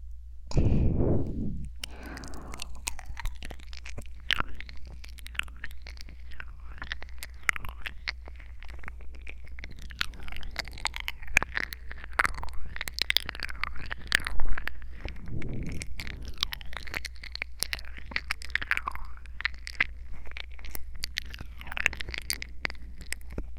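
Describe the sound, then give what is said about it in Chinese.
Chewing and biting on an ear, imitated with mouth sounds: a long, steady run of many soft, moist crunches, smacks and nibbles, fairly quiet and unbroken, with no talking. “你的小耳朵可真好吃啊。”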